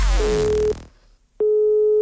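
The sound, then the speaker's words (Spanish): Telephone tone of an outgoing call: a buzzy electronic tone sounds briefly and cuts off, then after a short silence a steady pure tone starts again and holds to the end. “¿reconocerá a Cristina San Bernardino cuando la llame para decirle que se cancela la fiesta que está a punto de celebrar en un restaurante?”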